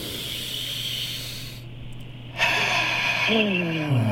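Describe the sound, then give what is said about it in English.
Deep inhalations through the nose during a guided breathing exercise: a loud, breathy rush of air that starts abruptly and holds steady. A low voiced tone slides downward near the end. “Three deep breaths in. 3, 2, 1, all the way in through the nose.”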